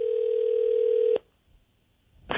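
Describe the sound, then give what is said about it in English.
A telephone dial tone hums as a call is placed, holding steady and even for a little over a second before cutting off sharply into near silence. A short burst of noise follows at the end. “we're about to see if we can get Mom on the phone now.”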